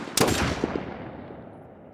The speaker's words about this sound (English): 5 shots were fired from the guns of 3 FBI agents.